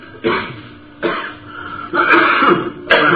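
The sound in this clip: Harsh, rasping throat clearing in a series of loud noisy bursts separated by short gaps, with no talk over it.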